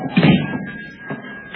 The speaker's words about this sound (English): Close the door.